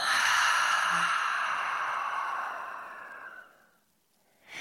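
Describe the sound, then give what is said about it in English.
A deep breath let out through the mouth: a long, breathy exhale that slowly fades into near silence, followed by the start of a sharp inhale at the very end. “let's all of us take a really deep breath in and through the mouth, let it out.”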